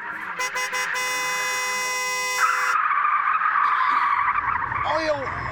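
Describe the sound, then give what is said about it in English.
Tyres screech as a car skids on oil on the road. The long, loud skid runs over broad rushing noise, with a steady tonal whine early on and a short squeal near the end. “Oil on the road. Gonna crash!”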